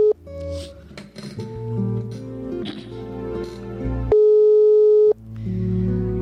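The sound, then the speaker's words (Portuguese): A telephone ringback tone sounds once for about a second while a call is placed to invite someone to pray. It is a steady, clear tone set between passages of music. “Chamando está, não sei se ela irá atender.”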